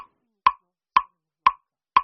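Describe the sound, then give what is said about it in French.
Metronome ticking for a dance composition, four sharp, dry clicks evenly spaced about half a second apart, heard alone with no other sound. “Voilà, donc là, ce qu'on entend, c'est le bruit du métronome.”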